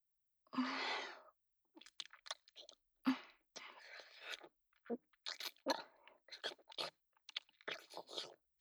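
Crunchy chewing and biting, many irregular crisp crunches and moist mouth sounds scattered in quick succession, quiet and close.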